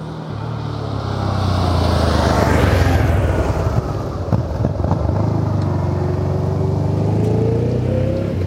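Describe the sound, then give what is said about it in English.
A car engine sound effect for a U-turn: a loud, steady engine drone throughout, its pitch climbing gradually toward the end. “Are you ready for the U-turn? Hit the U-turn, my brother.”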